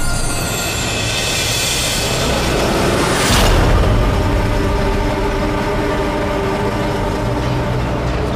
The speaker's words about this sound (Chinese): 动车了。